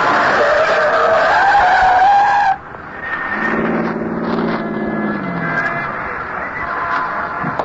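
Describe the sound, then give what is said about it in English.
A yellow taxi skids around a snowy Manhattan street corner and stops against a snowbank. A loud tire squeal rises slightly in pitch, then breaks off into a lower engine rumble that slides downward as the car settles. “A yellow taxi spins around the corner at 103rd and West End and settles to a stop astride a brown snowbank piled high on the curb.”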